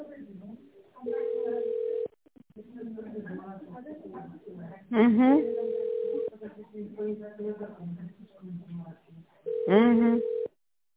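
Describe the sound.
Telephone ringback tone of a call going unanswered: three long, steady mid-pitched beeps separated by pauses, with people talking between and over them.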